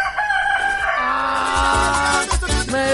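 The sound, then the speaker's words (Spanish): A rooster crows with a long, strained harmonic call, followed by a few lower, rougher notes. “Yo pensé que este gallo ya no iba a cantar más, mira cómo es. Oye, pero que... Y canta... Y canta hasta bonito”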